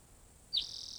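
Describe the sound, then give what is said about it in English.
Birds singing: a sudden bright, high chirp about halfway through settles into a thin, steady high tone that holds to the end over a quiet, faint background. “Two birds singing.”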